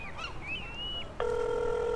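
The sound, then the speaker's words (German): A telephone ringback tone cuts in abruptly partway through and holds steady to the end as a flat, buzzy mid-pitched hum. Softer wavering whistle-like tones come before it. “Ein Freizeichen statt dieses ewige, der Teilnehmer ist im Moment nicht erreichbar.”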